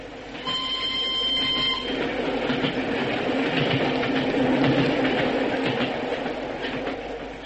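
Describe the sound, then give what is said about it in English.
A special train of a single railway carriage thunders past with a rumbling, clattering roar that swells toward the middle and then eases off near the end. “at Canterbury, we saw the single carriage of the special go thundering past us”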